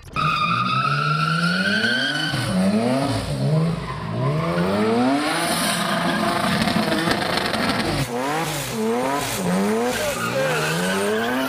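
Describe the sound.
A twin-engine car with one engine in the front and one in the back drives hard and slides, its engines roaring loudly and repeatedly swooping up and down in pitch amid squealing, skidding tires.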